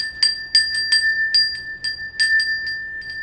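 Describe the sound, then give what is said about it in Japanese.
A Japanese summer wind bell (furin) rings alone in bright, high tinkling tones. Many light, irregular strikes each leave a short clear ring, with some coming in quick clusters. “じゃあ、今週から、お便り読むときの、カーの音の代わりに風鈴にしようかな。”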